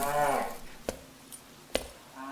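Cattle moo inside a barn. A deep, drawn-out moo opens, then two sharp knocks follow at even spacing, and another low call begins right at the end.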